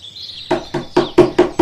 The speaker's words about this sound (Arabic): ماذا حدث يا إلهي؟ إن الغزالة تطرق الباب بقوة.